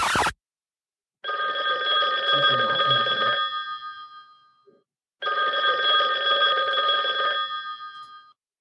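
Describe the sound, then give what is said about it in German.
A telephone rings in two long bursts of about three seconds each, separated by a short pause. The ring is a bright, steady, layered tone, loud and alone apart from a brief sound at the very start. “Jetzt hat mich der Martin eben angerufen. Aber jetzt bin ich bei Stefans Anruf dran gegangen. Ach, da ist er wieder.”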